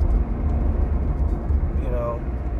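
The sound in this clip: Inside a car driving to work, a steady low engine and road rumble continues throughout while a person talks over it.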